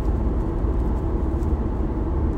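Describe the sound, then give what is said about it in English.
A car drives along a road with a continuous low engine rumble and road noise. The rumble holds a steady level throughout. “if you can get past me shifting gears and being on the road, I think this is worth your time”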